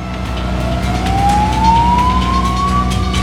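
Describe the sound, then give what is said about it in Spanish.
A police car siren as the car speeds past. A single loud wailing tone slides steadily upward in pitch over a continuous rumble of engine and road noise. “se detiene mientras ve pasar un coche de policía a toda velocidad”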